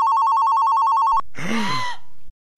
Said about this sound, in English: You get it. Screw that. Let the machine get it. That's why we have voicemail.